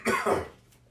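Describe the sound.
A rough throat clearing from a speaker with a scratchy throat: two quick, harsh bursts close together, then a fading rasp, heard alone.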